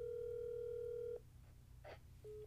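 A telephone call being placed: a steady, loud dial tone holds for about a second and then cuts off, followed by a quieter stretch with soft noises and a short return of the tone near the end.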